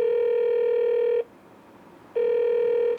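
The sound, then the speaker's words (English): An outgoing telephone call rings on speakerphone: two long, steady buzzing tones separated by a short pause, with no voices. “Now I gotta call Livvac. Put it on speaker.”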